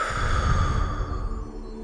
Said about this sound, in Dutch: Adem in door je neus. En blaas alles weg door je mond.